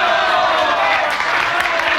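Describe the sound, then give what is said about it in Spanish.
Crowd applause for protesters who halted approaching trucks by standing their ground, a loud, dense, continuous wash of clapping and crowd noise. “El público aplaude a los manifestantes por su valor y serenidad.”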